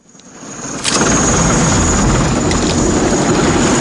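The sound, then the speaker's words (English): Heavy helicopter gunship rotor and engine noise across a night sky, swelling up over the first second into a loud, steady roar that holds without a break. “A huge helicopter gunship appears out of the night sky up ahead.”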